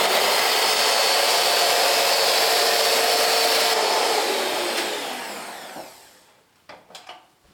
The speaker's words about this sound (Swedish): Den låter hemskt den här maskinen. Och det blev inte något smör, utan det är precis lagom vispad.